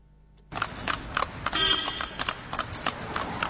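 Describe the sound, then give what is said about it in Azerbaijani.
Horse hooves clip-clop on a city street as a horse-drawn carriage passes in Ganja, with many quick, uneven knocks in a continuous trotting rhythm. No voices are heard. “Amma elə ki, küçədə bacada at fayton göründü, onda hamı tamaşaya durur.”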